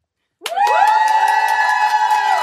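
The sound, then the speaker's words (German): A studio audience at the FM4 stand-up stage in a radio studio breaks into sudden cheering, with a few voices sustaining loud, high shrieks and yells after an abrupt start from silence. “Ja, wenn es Jubelschreie gibt hier live auf Radio FM Quattro, dann heißt das, dass Leute hier sitzen im Sendestudio und bei der FM4 Stand-Up-Bühne heute dabei sind.”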